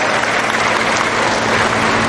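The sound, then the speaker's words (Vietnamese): Applause from a church audience: dense, continuous clapping from many hands, loud and steady for about two seconds with no break. “Cảm ơn con một tràng pháo tay thưa anh chị em.”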